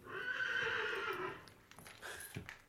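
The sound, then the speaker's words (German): A horse whinnies, the third in a row of horses, with a long harmonic neigh across the first second and a half that then trails off into a few softer, scattered noises. “Drüben in der Reihe hat das dritte Pferd gewiehert.”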